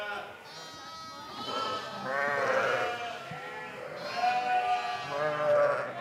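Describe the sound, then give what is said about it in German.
Lambs and mother sheep bleating: a few wavering, harmonic bleats that overlap and rise and fall in pitch, moderately loud against a quiet background. “Die Lämmer sind schon gut zu Fuß und müssen immer wieder zu ihren Müttern zurückgebracht werden.”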